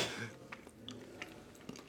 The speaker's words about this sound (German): Hör jetzt auf, die ganzen Nüsschen zu essen. Die sind gleich schon alle, wir haben noch gar nicht angefangen. Wenn ich warte, esse ich Nüsse.